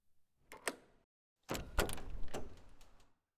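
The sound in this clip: A door being opened at home: a few soft clicks and taps, a short pause, then a longer rumbling, scraping slide with a couple of knocks inside it. No voices.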